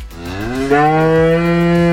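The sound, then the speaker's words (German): A calm 14-year-old farm cow gives a single long, loud moo, rising slightly at the start and then holding a steady, richly harmonic low tone to the end, heard alone. “Sie ist eine ganz ruhige Kuh, die einfach gerne dasteht und wiederkaut.”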